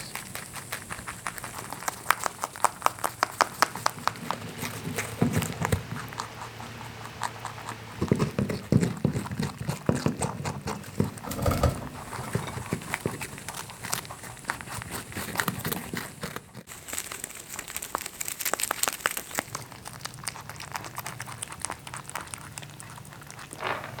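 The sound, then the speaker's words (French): Two mammals chewing their food of hay, grain, carrots and dandelions: a faint but continuous run of rhythmic crunching and grinding bites, with varied textures, lasting the whole clip. “J'assiste à une diversité de textures sonores inédites selon l'aliment dévoré. Des partitions musicales savoureuses.”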